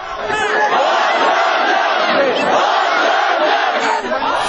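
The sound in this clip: Demonstrators on Baghramyan Avenue in Armenia loudly shout chants during a protest against an electricity tariff increase, a dense, sustained roar of many voices with no pause.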